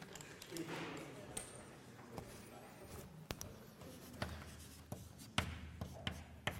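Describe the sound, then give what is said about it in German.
Handwriting with a pen scratching across paper, a faint, continuous rasp broken by a few light taps and clicks as strokes start and lift. “ich schreibe es in Anführungszeichen”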